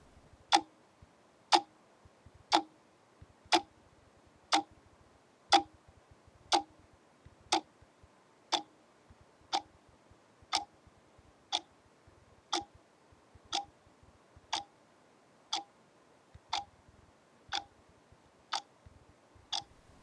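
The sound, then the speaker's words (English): Clock ticking in a cottage: twenty crisp, evenly spaced ticks at about one per second, steady and moderately quiet, with no other sounds. “Tick-tock of the clock at the cottage is loudest”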